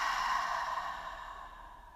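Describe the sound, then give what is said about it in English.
A single long, deep breath is drawn in a guided breathing exercise: a soft, airy rush that holds steady, then slowly fades, with no talking. “Let's start by taking 3 deep breaths in together, and we'll hold and release. So let's breathe in and out.”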